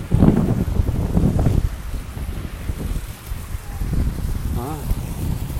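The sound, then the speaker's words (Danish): Strong wind buffets the microphone in a steady, loud low rumble that continues throughout, with a muffled voice briefly audible near the start. “Hold kæft, det blæser.”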